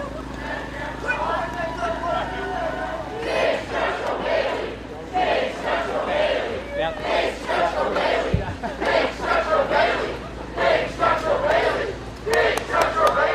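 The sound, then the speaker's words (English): Crowd cheering and shouting at an Elizabeth Warren campaign event as she approaches a giant inflatable of her dog, loud voices rising and falling in repeated bursts. “those are the cheers of Elizabeth Warren's followers, the Warren Commission to some, as she approached a gigantic inflatable version of her dog, Bailey.”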